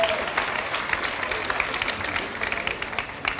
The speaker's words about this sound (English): Give yourselves a huge round of applause.